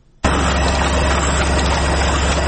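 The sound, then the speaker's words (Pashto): A printing press runs while printing the pages of a small book in Afghanistan, its dense, loud mechanical roar starting abruptly after a brief quiet moment and holding steady and even throughout. “دا چاپ دغه ماشین کې پراته کاغذونه د یو واړه کتاب دی”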